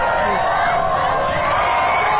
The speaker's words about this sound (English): Now, to most of us, a football game sounds like this.